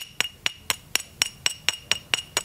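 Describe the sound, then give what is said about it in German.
Two pottery sherds, stoneware, tapped gently against each other: ten evenly spaced, sharp clinks, each with a short, bright ringing tone. “Auch der Klang gibt Auskunft darüber, aus welchem Material eine Scherbe besteht. Ich schlage die beiden mal vorsichtig aufeinander.”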